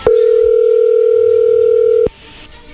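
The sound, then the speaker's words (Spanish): A telephone dial tone sounds while a call is placed. It is a loud, steady single-pitched hum lasting about two seconds, then cuts off abruptly into faint low noise. “A ver, vamos a marcarle, Héctor, a tu esposa Yolanda y a ver qué sucede.”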